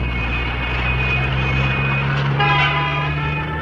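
Heavy night-time traffic full of goods trucks gives a loud, steady engine rumble and drone with a faint tonal whine running through it and no break in the noise.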